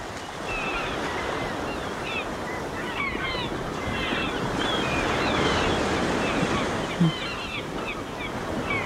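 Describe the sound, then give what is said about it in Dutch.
Sea waves break on the beach at Noordwijk in a steady, broad roar of surf. Wind noise rushes underneath, with no clear gaps between the waves. “Het geluid van je jeugd. Ja, de zee. De zee, het strand, de Meeuwen in Noordwijk.”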